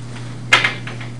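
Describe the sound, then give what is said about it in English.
A door being opened or shut: a sharp clunk followed quickly by a second, softer knock, then faint later taps, all over a steady low hum. “Let me grab that door real quick.”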